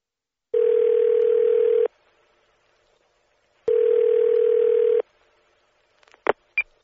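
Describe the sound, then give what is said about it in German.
Telephone line tones on a call to a cinema information line: two long, steady buzzing tones separated by a pause, followed by a few sharp clicks at the end. “Sie möchten ins Kino gehen und rufen die Kinoauskunft an.”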